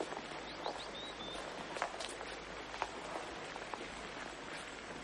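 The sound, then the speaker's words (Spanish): Faint footsteps of a cardinal walking across a large, long hall toward a table at its centre: a few soft, irregular steps over a steady, noisy background. “El cardenal entra en una gran sala alargada y camina hasta la mesa situada en el centro.”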